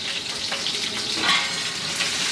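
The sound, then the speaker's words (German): A sauce base simmers and sizzles on the stove beside a pot of vinegar water for poaching eggs, making a steady, bright, continuous hiss with slight swells. “Das Geräusch kommt jetzt nicht vom Wasser, sondern es kommt vom Soßenansatz, den wir nebenbei laufen haben.”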